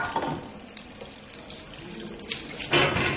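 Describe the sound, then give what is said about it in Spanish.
Water running from a tap as hands are washed after a surgical intervention, a steady rushing splash with shifting spatter that swells louder near the end. “se lava las manos tras una intervención”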